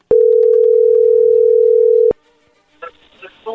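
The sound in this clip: Telephone dial tone before a phone call: one loud, steady hum-like tone lasting about two seconds that cuts off abruptly, followed by faint, brief voice sounds.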